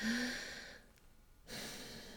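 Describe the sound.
A slow breath during a guided mindfulness exercise, heard as a faint airy hiss that drops away briefly in the middle before the soft rush of air returns, with no talk.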